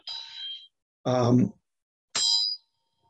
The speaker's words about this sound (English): the Dorji bell from the Tibetans.